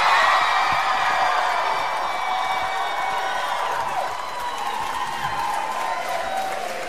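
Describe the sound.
A concert crowd cheers and applauds in a dense, steady roar that stays loud for the whole stretch without a break.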